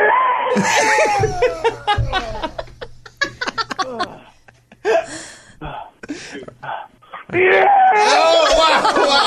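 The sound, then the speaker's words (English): A man grunts while working out on a leg machine, the sound breaking into choppy, stuttering vocal bursts with short gaps, before closing on a loud, sustained high-pitched squeal. “Okay, on this one, end it with like a high squeal at the end of it. Okay. All right, grunt number 9.”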